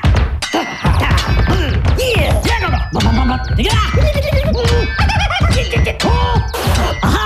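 Swords clash in a fight, with many sharp metallic clangs ringing out in an irregular rhythm, mixed with strained vocal cries and scraping.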